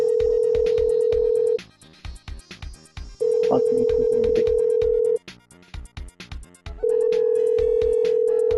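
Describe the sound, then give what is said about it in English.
Ringback tone on an outgoing telephone call still waiting for an answer: three long, steady, loud tone bursts separated by quiet gaps, over a running pattern of sharp rhythmic ticks. “Come on. Pick up. Come on, pick up, damn it. I'm trying to do a call.”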